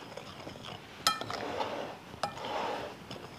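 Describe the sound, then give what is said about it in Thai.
Stirring hulled, lightly roasted mung beans and turmeric powder together in a bowl: two sharp clinks of a utensil against the bowl, with soft gritty scraping between and after them, quiet and without talk. “ใส่ผงขมิ้นคนให้เข้ากัน”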